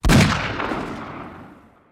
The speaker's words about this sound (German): Wieder ein Schuss.